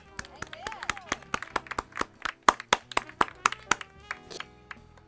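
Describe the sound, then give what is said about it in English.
Scattered guests clap for the chef at a small post-COVID gathering. Many sharp, separate handclaps ring out at an uneven rhythm, and a voice is briefly heard near the start. “Everyone, give her a round of applause for setting up this 5-star post-COVID gathering.”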